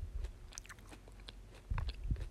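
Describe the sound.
Someone chews a citrus-mint gummy candy. Soft, quiet, moist chewing and biting sounds come in an irregular series, louder toward the end.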